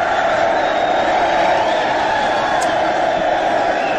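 A studio audience cheers and whoops to welcome a guest: a loud, steady wash of crowd noise that holds at one level from start to finish.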